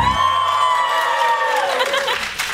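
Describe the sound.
A live studio audience cheers and whoops loudly and enthusiastically, with high voices sustaining and then trailing off.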